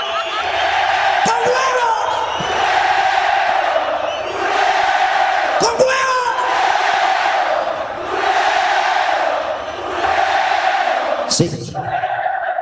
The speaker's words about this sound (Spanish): Cuando el público empieza a entonar cánticos europeos, que se oiga.